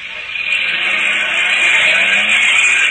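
A getaway car's engine runs as it drives off after a robbery: a loud, steady droning rumble that holds level throughout, with no voices.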